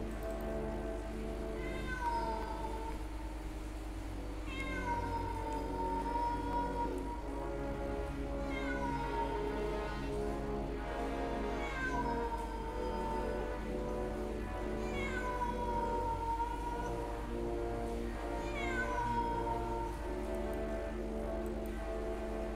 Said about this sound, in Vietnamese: Lần này con mèo lại kêu nhìn lên những tiếng còn rùng rợn hơn.